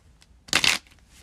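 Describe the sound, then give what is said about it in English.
Tarot cards being shuffled and drawn make one quick papery burst that stands alone amid near silence. “So let's pull another card and see if we get a new one this time.”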